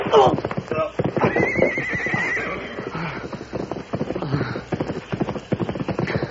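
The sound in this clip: A horse approaches with hoofbeats and neighing. Rhythmic clip-clop hooves run throughout, and a loud, high whinny sounds early on.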